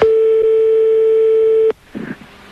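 A telephone line tone heard while a call is being dialed: one loud, steady, unbroken tone that holds for under two seconds and then cuts off abruptly, followed by a faint brief sound.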